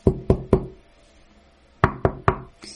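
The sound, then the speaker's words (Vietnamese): Knocking on a door: two sets of three sharp, loud knocks, separated by a pause of over a second. “Nhưng tiếng gõ cửa vẫn cố chấp vang lên.”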